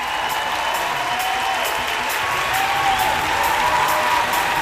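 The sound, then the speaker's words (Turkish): Sustained crowd applause, a thick, steady clatter of clapping that grows slightly louder about halfway through and holds to the end. “Çok çok çok çok alkışlıyorum yine sizi.”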